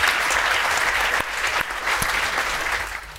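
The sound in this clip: An audience applauds to welcome a panel of speakers at a debate event. The clapping is dense and steady throughout and eases off slightly at the end.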